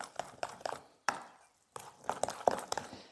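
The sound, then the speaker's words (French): Chopped herbs are stirred into ricotta in a bowl, making soft, irregular knocks and scrapes, with a short quiet pause midway before the mixing resumes in quick, uneven strokes. “j'ai haché et je vais venir ajouter mes herbes dans ma ricotta. Je mélange.”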